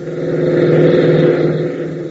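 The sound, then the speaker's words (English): A jeep races across an airfield, its engine giving a steady, loud, rumbling drone with a slight swell in the middle and no break throughout. “Ben, Tank, and Gale race into the hangar, reappearing within seconds in a jeep, and race across the field.”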